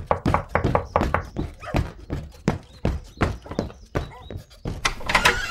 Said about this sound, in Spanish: ¿Están tocando la puerta?